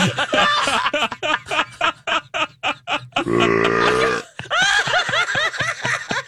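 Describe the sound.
A burp sound effect: a long, low, croaking belch swells in the middle, set among rapid choppy voiced bursts that resemble laughter before and after it.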